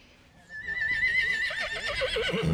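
A 19-year-old Welsh Section D horse, 14.1 hands, whinnies at an equestrian show. It is a loud, drawn-out call that starts abruptly after a short quiet lead-in and runs to the end with a wavering, quavering pitch.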